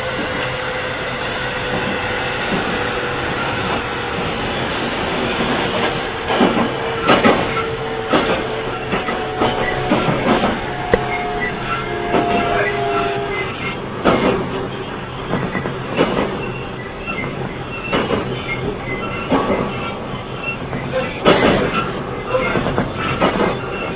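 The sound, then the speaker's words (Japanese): Train arriving at a station platform, a steady mechanical rumble broken by many sharp clicks and clacks, with a few thin squealing tones in the middle. “9番線の到着です。”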